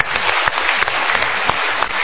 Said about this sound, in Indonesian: So kita berikan tepuk tangan dulu.